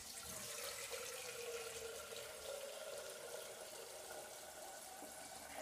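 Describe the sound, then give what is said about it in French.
Water runs into a flask as it is filled, a soft, steady rush and trickle that carries on unbroken from start to end, faint and alone. “Tu te remplis une gourde.”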